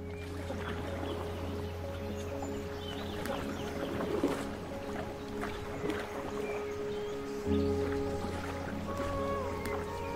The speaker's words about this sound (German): Und dieses Mal paddeln wir tatsächlich.